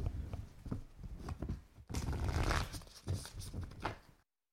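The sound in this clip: Someone shuffles a deck of cards by hand, making bursts of papery rustling and scraping of varying loudness, with a fuller stretch in the middle. Silence follows at the end.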